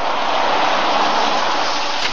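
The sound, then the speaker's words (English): Heavy rain falls hard on a dark, windy night outside a country house at the end of a dirt road, a dense, steady hiss with no pauses or voices. “It was a dark night, very windy and raining hard as we pulled up the dirt road to the house.”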